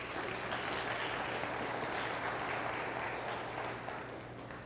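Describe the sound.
Audience clapping, a thick, continuous patter of many hands at an even, moderate level, tapering slightly in the final moment, with a low steady hum beneath.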